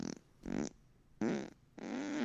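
Fart sound effects from a dirt-bike video, four buzzy, blurting bursts with low tones. The last burst is the longest.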